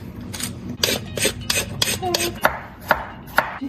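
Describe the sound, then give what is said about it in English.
A carrot is peeled with many brisk, rasping scrape strokes in a steady rhythm, the later strokes sharper and more spaced apart. “While you do that, I'm going to peel the carrot”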